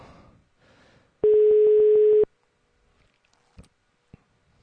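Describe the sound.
Telephone ringing tone while placing a call: one steady, mid-pitched ring lasting about a second, with a buzzy, rapidly pulsing texture, then near silence broken by a few soft clicks.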